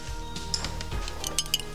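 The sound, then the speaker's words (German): Faint clinks from a cereal bowl held in the hand as a door is opened. A few light, high taps of spoon against dish stand out over a low, steady background. “hatte, als er dem ersten Detektiv die Tür öffnete, eine Müsli-Schale in der Hand.”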